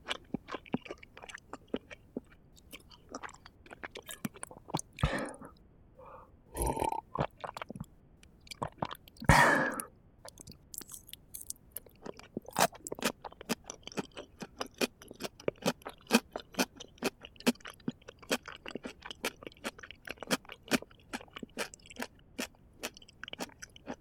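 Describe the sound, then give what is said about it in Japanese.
Chewing potato salad: many close, soft, wet bites and crunches in a loose, uneven rhythm, with a few louder, longer mouth sounds early on, all without talk. “ポテサラ終わっちゃう。大事に食べよう。”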